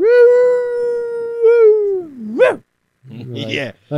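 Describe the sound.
Dog howling, a long, steady, high-pitched howl that wavers and ends in a sharp rising yelp, followed after a pause by a couple of short, rough barks.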